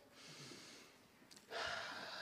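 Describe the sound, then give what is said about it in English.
An audience takes a breath together during a church worship service, a faint, airy hiss that swells suddenly into a louder, sustained rush of breathing in the second half. “So let's take a breath.”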